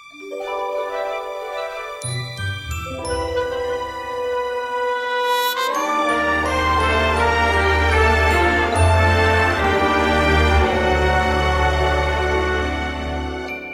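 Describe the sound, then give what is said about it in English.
A funny Christmas song opens with a purely instrumental passage of bright, chiming tones. A deep bass and fuller accompaniment come in partway through. No vocals are heard yet. “Here's a funny little Christmas song that I think you'll enjoy.”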